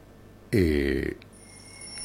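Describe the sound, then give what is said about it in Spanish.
An alarm bell rings in a single loud, buzzing burst lasting about half a second, then cuts off abruptly, leaving a faint background hum. “Ah, eso es una alarma de que hay que levantarse, ¿eh?”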